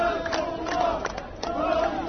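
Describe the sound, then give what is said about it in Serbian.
Qatar football fans chant their song together in the streets of Doha. The massed voices rise and fall rhythmically, with a few sharper shouts cutting through the steady singing. “Ovo su navijači Katara. Njihova pesma i igra.”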